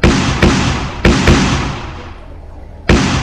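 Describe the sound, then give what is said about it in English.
A gunshot sound effect in a comic scene: five loud, sharp bangs, each with a decaying, noisy tail. The first four come in quick succession and the last arrives after a longer gap. “Oh no! Belle Plain shot Shane mainly in the brain.”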